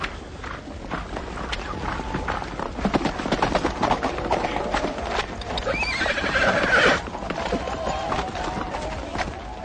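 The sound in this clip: A horse whinnies while its hooves clip-clop steadily underneath. The neigh rises clearly in the second half over the continuous walking rhythm.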